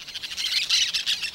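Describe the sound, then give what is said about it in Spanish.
Parakeets squawk while feeding on ripening corn in a cornfield, a shrill, continuous chatter of many overlapping high-pitched calls with no pauses. “Los pericos están haciendo fiesta en su milpa. Comiéndose el maíz, están.”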